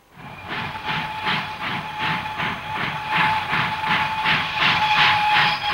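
A train chugs along in a steady, rhythmic run of puffs laced with a steam-like hiss. The sound stays loud throughout and comes alone, with no voices.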